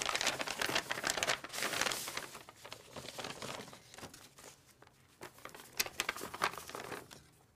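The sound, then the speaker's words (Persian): A paper envelope rustles and crinkles as documents are pulled from a closet, many quick dry crackles of fairly faint handling with no voices. “امیر پاکت رو از کمد در میاره و شناسنامه هاجر رو پیدا میکنه.”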